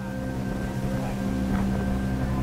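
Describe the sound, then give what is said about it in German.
The ship Origo ploughs through rough sea in the aftermath of a storm off the northern islands of Svalbard, giving a steady, low engine drone with a constant hum and no breaks. “Am nächsten Tag pflügt die Origo stundenlang durch die aufgewühlte See. Nachwirkungen eines abgezogenen Sturms.”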